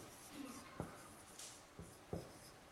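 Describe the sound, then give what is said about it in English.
Faint scratching of a pen on paper as a list of the four cardinal virtues is written out by hand, with a few short strokes over a quiet background. “I'll write them out for you, and then maybe we can define them real quick.”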